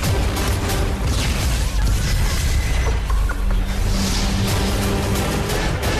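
Weapons fire in a Star Trek starship battle, heard as a continuous loud roaring rumble of blasts and booming noise with no clearly separated shots and no voices.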